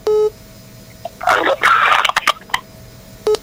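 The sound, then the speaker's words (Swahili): A telephone tone follows a caller's phone line being cut off: a short electronic beep, a stretch of rustling and clicking, then another matching beep at the end. “Hai, huyo simu yake imekatika na inanifanya kusonga mbele katika kipindi hiki.”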